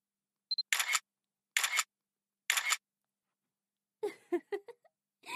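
A camera shutter fires three times at an even pace, each a sharp mechanical click-burst after a short high electronic beep, with quiet gaps between them and brief vocal sounds near the end.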